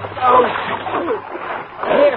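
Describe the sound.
Water splashes as people tumble out of a rocking boat, making churning sloshes that surge twice, with voices mixed in.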